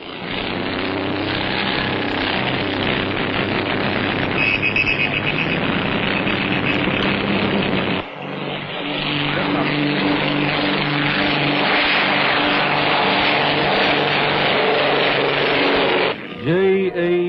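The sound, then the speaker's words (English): Loud, continuous engine roar of the Comet aircraft Black Magic taking off at the start of an air race at dawn, a broad droning blare that dips briefly midway and then carries on at full strength. “Jim and Amy Morrison, flying their Comet Black Magic, are the first to leave. The flag drops. They're off. The race has started.”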